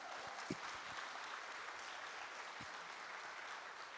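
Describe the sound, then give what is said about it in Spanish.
An audience at a worship gathering applauds in a steady, faint wash of clapping throughout, with no pauses and only a couple of slightly stronger claps. “¿Cuánto aplauden la grandeza de Dios?”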